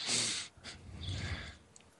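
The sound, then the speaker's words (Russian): Slow, focused breathing: a few soft, airy inhales and exhales, quiet and unhurried, with a slightly snorting nasal edge and no talk over them. “пускай у нас будет твое сосредоточенное дыхание. Да, да. Дышите ровнее.”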